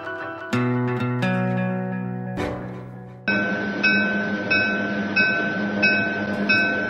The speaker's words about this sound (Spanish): Nos encontramos en el último tren.